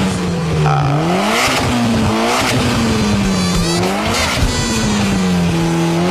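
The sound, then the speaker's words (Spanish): Car engine running and revving loudly, a continuous roaring drone whose pitch repeatedly climbs and sags as the throttle is worked, with a harsh, squealing edge and no talking. “Ya está bueno, dile que apague el motor, pues ya está metiendo bulla. Mira el motor, como suena.”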